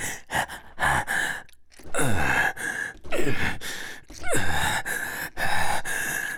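A person pants in heavy, uneven breaths: a series of loud gasps and breathy sighing exhales, several bursts separated by brief pauses.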